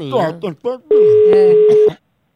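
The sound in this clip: A telephone ringing tone as a phone call is placed: a short burst of talk, then one loud, steady, even-pitched tone held for about a second before it cuts off into silence.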